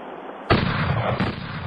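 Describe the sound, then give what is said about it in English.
Gunshots fired during target practice: after a short quiet stretch, a loud, sharp blast breaks out and its roar holds, and a second burst hits shortly after, with no talk over them. “Okay, I heard more than one shot.”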